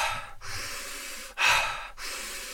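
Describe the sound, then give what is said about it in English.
Rapid, energising charging breaths: a few forceful, rhythmic breaths in quick succession, with one louder, sharper inhale in the middle, heard alone without talk. “So then I choose more of a charging breath.”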